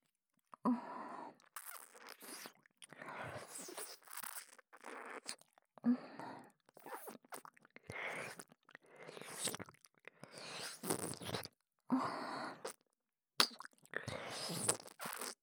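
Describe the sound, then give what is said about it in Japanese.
Licking behind the ear: bursts of wet, crackly mouth noise come close to the microphone in a steady series of many short runs, with brief pauses between them. “耳の裏も舐めてみていいかしら。”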